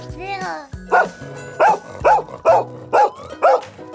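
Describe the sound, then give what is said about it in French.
A German shepherd dog barks six times in short, loud, evenly spaced bursts, with a voice heard briefly just before the barking starts. “Oh là, tout doux, tout doux. Ah, excuse-moi, c'est Commander, le chien du président américain. Et il n'a pas un caractère facile. D'ailleurs, ce berger allemand”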